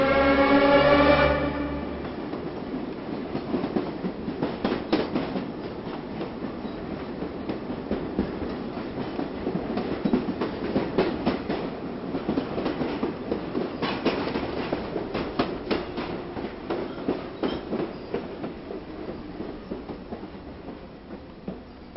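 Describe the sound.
A subway train carriage running along the track with a steady clickety-clack of wheels, a continuous rattling clatter with rhythmic bursts throughout and no voices.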